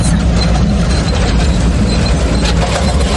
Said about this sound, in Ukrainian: Це дуже рідкісна самохідна артилерійська установка. Французький Цезар на восьми колесах виграбе звідусіль. Цезар поїхав на роботу, зараз піднімає куряву і